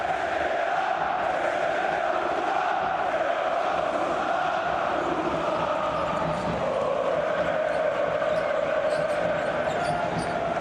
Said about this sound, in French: ces ambiances incandescentes, ce supporter de l'Olympiakos